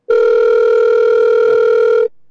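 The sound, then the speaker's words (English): A telephone dial tone sounds while a call is placed to a guest, holding one steady, loud, continuous pitch for about two seconds before cutting off abruptly. “Well, let me call you right back. Okay. All right. We're going to call him back.”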